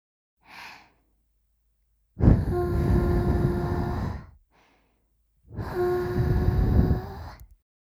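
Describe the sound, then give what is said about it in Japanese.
Two long, gentle breaths blown into the ear during an ASMR ear-cleaning session, each a soft, airy hiss lasting about two seconds, with fainter short breaths before them. “耳かき終了です。それじゃあ最後に耳をふーっとしますね。いきますよ。”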